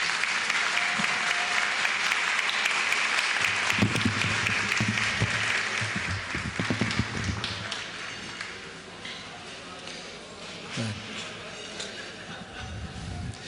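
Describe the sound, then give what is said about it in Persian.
Sustained audience applause at an evening event, a dense, steady clatter of many hands that thins slightly toward the end. “حالا هر چی میخواد برش دست بزن.”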